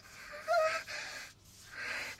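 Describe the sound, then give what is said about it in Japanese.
A sleeping man lets out soft, breathy, aroused sighs and exhalations, a few drawn-out breaths that swell and fade. “エッチな吐息聞こえる。お兄ちゃんも眠りながら感じてくれてるんだ。”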